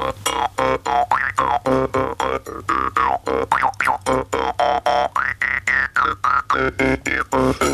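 An Estonian folk instrument shaped like a mousetrap is plucked in a fast, steady rhythm. Many short metallic twangs carry shifting, resonant, synth-like overtones that wobble up and down.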